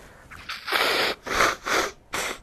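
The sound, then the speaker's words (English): Someone fighting off a cold blows their nose in several loud, noisy bursts of air with brief gaps between them, and no other sound. “Let me blow my nose. Sorry about this.”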